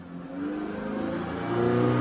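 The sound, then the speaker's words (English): Boat engines revving on the East River, a steady low droning roar that grows a little louder and climbs slightly in pitch toward the end. “Here come the engines again.”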